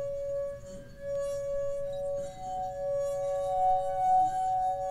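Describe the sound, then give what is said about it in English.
A wine glass sings as a finger is rubbed around its rim, holding one steady, pure ringing note with faint overtones that pulsates gently as it sustains, alone without talk. “Then, when the vibrations caused by your finger hit just the right level, the glass begins to sing with this full pulsating note.”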